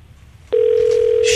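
A telephone rings on the line with a single steady tone that starts abruptly and holds to the end.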